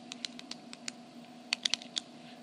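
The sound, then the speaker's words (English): Ballpoint pen clicking: a run of sharp, dry clicks, lighter and more spaced at first, then a tighter cluster of louder ones near the end, over a faint steady hum. “I have a ballpoint pen in front of me here. You can hear the click.”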